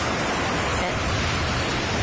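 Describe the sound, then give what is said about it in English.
Sea ambience sound effect of waves and surf: a loud, unbroken rushing hiss with no pauses or distinct breaks. “I would say what we do need is a bit of ambiance. So let's transport ourselves to the sea.”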